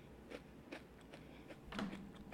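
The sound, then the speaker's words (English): Crunchy bites of an ice cream cone being eaten, with several faint, crisp crunches spaced unevenly over a low background hum. “What you eating? It's like ASMR. the rest of my little ice cream cone that I didn't finish.”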